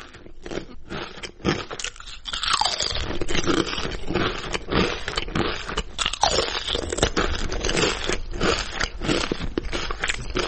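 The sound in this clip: Potato chips crunch continuously: many crisp, crackling bites and chews follow one another in a dense, uneven rhythm.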